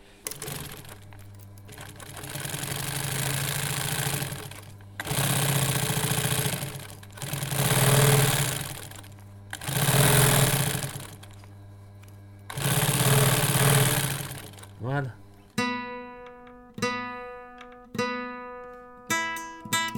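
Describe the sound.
A sturdy sewing machine with a delicate running sound stitches fabric in about five whirring runs separated by short pauses, followed by several brief, sharp, ringing taps.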